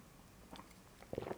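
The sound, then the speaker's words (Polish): A faint sip of coffee: one soft, brief sound, then a short cluster of quiet wet slurping noises. “Łyczek kawy. Pierwsza kawka dzisiaj z nami”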